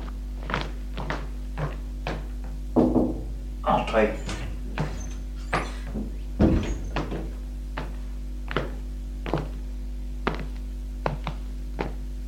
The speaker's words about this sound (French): Il sort de sa chambre pour aller frapper au bureau de son père.